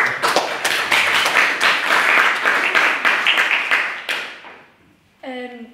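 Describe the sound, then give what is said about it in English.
An audience at a debate applauds a speaker with dense, lively clapping for about four seconds, which dies away before a voice begins to speak. “Can we get another round of applause for a maiden speaker?”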